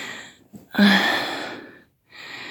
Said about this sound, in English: I'm just kneeling on my bed now. Catching my breath as you can hear.